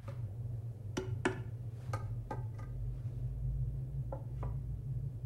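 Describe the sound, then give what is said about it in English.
A piece of wood tapping on the floor and ceiling of a dark tunnel: several faint, sharp knocks in an irregular rhythm over a steady low hum. “He taps the floor and the ceiling of the tunnel with a piece of wood.”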